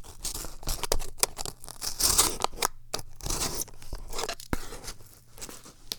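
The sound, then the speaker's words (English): Utility knife blade cutting under a label: a rapid, irregular series of sharp scraping, crunching and tearing strokes, fairly loud and with no talk. “So we'll get out the old utility knife and open it up, exposing the blade. And we'll just sort of cut under this label here.”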